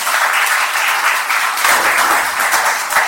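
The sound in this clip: Audience applause greets the featured speaker at a Marathi lecture event. It is a dense, steady wash of many hands clapping that stays loud throughout, with no voices over it.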